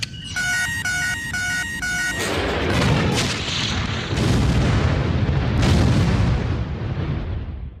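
A spaceship self-destructs in an explosion: about two seconds of rapid electronic beeping give way to a loud, sustained rumbling roar with bursts of crackle that lasts to the end.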